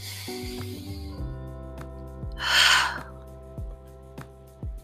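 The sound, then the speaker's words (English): A single deep breath, a breathy rush of air lasting about half a second, rises out of a steady backdrop of soft, evenly struck tonal notes that continue before and after it. “Take a deep breath.”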